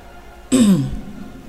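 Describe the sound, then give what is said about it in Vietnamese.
A single throat clearing: one short, rough burst that fades quickly, heard alone with no talk. “Tước Mẫu Vương hắng giọng một cái mới nói”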